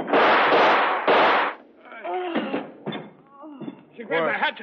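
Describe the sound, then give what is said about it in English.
Gunshots are fired at a woman who had thrown a hatchet: two loud, rough blasts in quick succession, each ringing briefly, followed by voices talking. “She grabbed the hatchet, sir, and threw it. We had to shoot, sir.”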